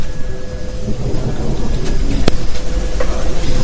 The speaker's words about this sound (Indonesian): Petir yang sangat besar menggelegar sampai membuat jendela pun ikut bergetar.